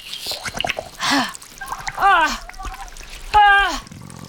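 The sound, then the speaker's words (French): Water poured from a water bottle onto a snail's body comes as short splashing, trickling bursts, mixed with breathy gasps and sighing vocal reactions of relief. “Il reste un peu d'eau dans ma gourde, là. Hein? Ça te dirait un peu d'eau sur le corps?”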